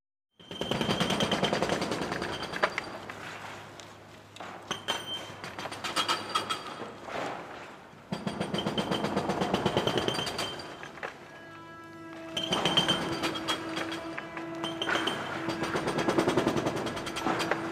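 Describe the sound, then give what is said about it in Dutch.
Demolition of the building across the street: loud, rough rattling and crunching in long sustained stretches, broken by a few short lulls, with a steady low hum running under parts of it. “Terwijl de muren op me afkomen, zie ik vanuit het raam hoe het gebouw tegenover mijn huis wordt gesloopt.”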